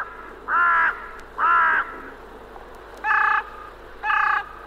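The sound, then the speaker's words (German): Harsh cawing of a crow, a hooded or carrion crow, four loud rasping calls. Each lasts about half a second, coming in two spaced pairs with no other sound. “die östlich der Elbe heimische Nebelkrähe mit ihrem grau-schwarzen Gefieder und die westlich der Elbe heimische Rabenkrähe mit ihrem schwarzen Gefieder.”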